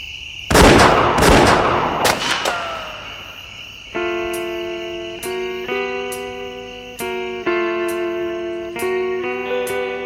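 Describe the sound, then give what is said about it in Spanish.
Several loud, sharp gunshots crack in quick succession near a train. They are followed by a sustained harmonic tone that pulses on and off in a steady pattern. “a ver si siguen los tiros”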